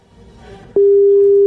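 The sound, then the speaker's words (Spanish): Telephone call tone heard while dialing: after a faint, low background murmur, a loud, steady single-pitch tone starts partway through and holds unbroken to the end. “Vamos a llamar. Estamos llamando.”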